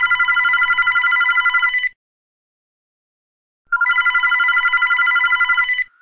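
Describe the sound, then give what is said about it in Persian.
Telephone ringing at home early in the morning: two long trilling rings, each about two seconds of rapid, bright warbling, separated by a pause of silence. “حدود هشت صبح بود که ساسان زنگ زد.”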